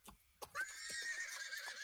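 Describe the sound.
A small horse neighs: a couple of brief knocks come first, then a long, high, wavering whinny that holds steadily to the end.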